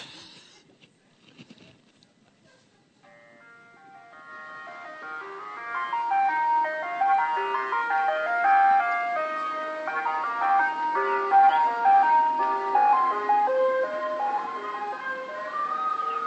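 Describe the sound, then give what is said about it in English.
An ice cream van jingle plays alone: a bright, tinkly melody of high chiming notes in a steady, repeating tune that starts after a few seconds of faint noise and then keeps going at an even, moderate level. “What do you think when you hear that tune? Ice cream van.”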